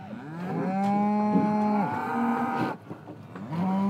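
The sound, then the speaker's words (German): A bull weighing over a tonne bellows in a long, loud, low call rich in harmonics that wavers and breaks off. A short rougher stretch follows, then a second bellow begins. “So, da kommt der Gegner. Mehr als eine Tonne wiegt der Bulle.”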